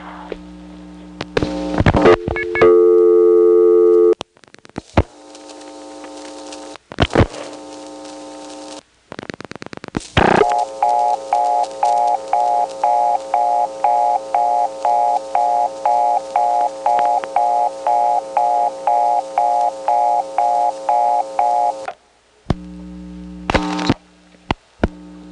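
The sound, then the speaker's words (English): Telephone ringback circuit tone from a number one step-by-step exchange, used by party line subscribers to ring the other party: bursts of buzzing tone and clicks, then a long harmonic tone broken by regular short gaps, ending in a few clicks. “Was also a ringback circuit. This is the one that is supposed to be found in a number one step.”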